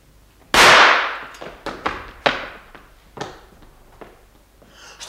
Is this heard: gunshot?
yes